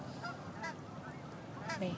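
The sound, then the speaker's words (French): Canada geese and other geese honk in a few faint, separate calls over a soft background hush. “On entend les oiseaux, puis je suis vraiment émue présentement. Il y a des bernaches, il y a des oies. On est entouré d'oiseaux”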